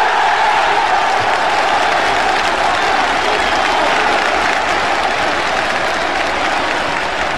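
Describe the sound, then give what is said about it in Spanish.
A crowd applauds at a public event on civil disobedience against evictions, producing a loud, dense and steady wash of clapping that holds throughout and eases only slightly toward the end. “¿Y qué hacemos con esto? Pues esto es un aplauso, ¿no?”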